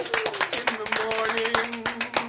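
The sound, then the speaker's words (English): A round of applause for comedian Pete Holmes, scattered clapping that runs along under people talking. “You know we don't normally do this, but I say a round of applause, Pete Holmes. Pete Holmes, everybody.”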